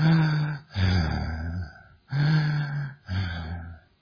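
Slow, deliberate breathing in a quiet, relaxed state of meditation: four long, audible breaths follow one after another, each a broad, airy rush with a slight voiced edge, with no talking.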